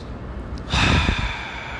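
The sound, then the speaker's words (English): A single deep breath: after a brief quiet moment, a broad airy rush of breathing swells and holds steadily to the end. “Let me take a breath.”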